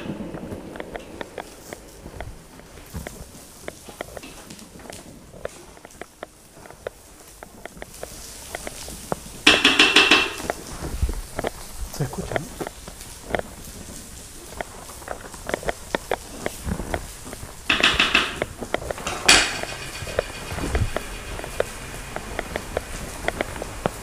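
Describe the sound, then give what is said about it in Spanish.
Rice browns in a pan with onion and garlic, giving a continuous crackling sizzle of dense, irregular tiny pops that swells louder in two brief bursts. “Estamos eh, dorando el arroz con cebolla, ajo.”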